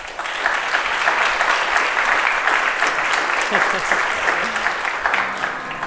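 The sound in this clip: Applause from the audience at a live recording session at the London Walking and Cycling Conference, an even, dense wash of clapping that eases near the end as a voice begins.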